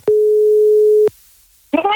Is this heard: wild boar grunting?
no